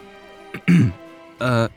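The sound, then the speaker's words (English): A single rough throat clearing, a short harsh burst followed by a brief voiced sound. “I cleared my throat”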